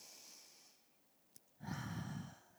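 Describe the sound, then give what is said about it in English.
A deep breath during a church service prayer: a faint, airy intake gives way to silence, a tiny click, then a louder, gusty exhale lasting under a second. “to trust, to take a deep breath, do that with me”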